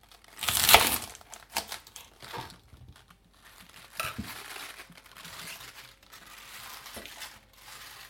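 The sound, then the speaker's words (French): Cutting the soil-filled base off a whole chard gives a crisp, loud crunch at the start, followed by several faint crackles and rustles. “on prend toute la blette entière, avant de la laver, et on coupe la base qui est souvent remplie de terre.”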